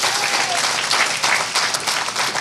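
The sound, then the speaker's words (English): A church audience applauding with hand claps during a sermon: a dense, steady clatter of many overlapping claps that holds at an even loudness from start to finish. “Come on, somebody, give him a hand clap.”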